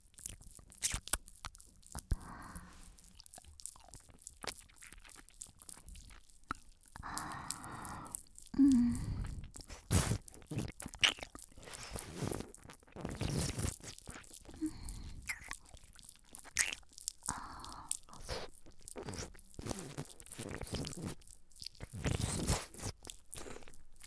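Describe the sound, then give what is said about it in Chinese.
Wet mouth sounds of a lollipop being sucked and bitten, with many crunchy bites, smacks and clicks in an uneven stream, fairly loud throughout. “我的嘴巴里含着棒棒糖的声音”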